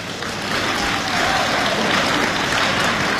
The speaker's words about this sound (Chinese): 这掌声不热烈怎么唱 啊？啊！我这掌声还不热烈呢，这回大家伙热烈鼓掌